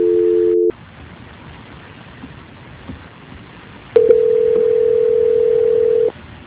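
Telephone tones during a call transfer: a short steady tone, then a stretch of faint line hiss, then a longer, louder continuous tone of about two seconds that stops abruptly. No one speaks.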